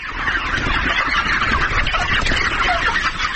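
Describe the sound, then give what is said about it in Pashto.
Chickens on a small poultry farm near Tarinkot, about fifteen white birds of roughly a kilogram each, cluck and call in a dense, continuous chorus that stays loud and busy throughout. “د ویشت کلن داد محمد د چرګانو پارم دی چې موږ ته یې دروازه پرانیسته او د پارم د لیدو اجازه یې راکړه.”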